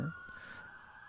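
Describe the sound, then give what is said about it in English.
A police car siren passing by a house, heard as a faint, steady high wailing tone that holds throughout with no talk over it. “Oh, there's cops going by my house. That's the sound of the police.”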